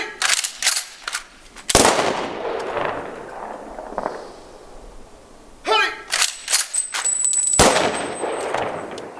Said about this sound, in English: Kachi, 21 gun salutes for my guy, our fallen comrade.